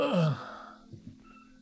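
An old man gives a low groaning sigh that slides down in pitch, followed by a few faint, soft stirring sounds as he shifts.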